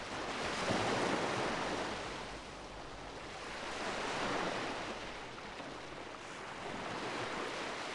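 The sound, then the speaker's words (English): Waves of an incoming tide rolling in, a steady, broad wash of surf that swells and eases about three times, with no voices. “There's something so comforting about this. The inevitability of the incoming tide.”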